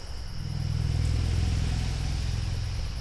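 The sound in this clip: Steady traffic noise from the Route 302 highway: a continuous low engine rumble and drone of passing vehicles, holding at a fairly even, moderate level throughout with no talking.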